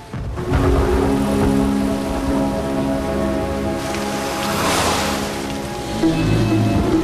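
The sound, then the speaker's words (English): Heavy rain pours during a thunderstorm while a car drives along with its wipers struggling. A steady, loud hiss of rain runs throughout beneath sustained low musical tones, swelling briefly midway. “The bright blue flashes of lightning illuminate Woodward, an ominous and imposing Gothic building. As she drives along, her wipers fail to keep the windscreen free of the relentless rain sheet.”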